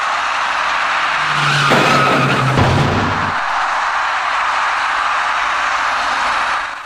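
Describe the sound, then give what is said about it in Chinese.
Road noise from a crash at an intersection between a pink car and an electric bicycle rider: a loud, constant roar with a harsher screeching, skidding burst near the middle. No voices are heard. “一辆粉色小客车跟一位电动自行车的骑车人发生了严重相撞后，一起甩进路口里面”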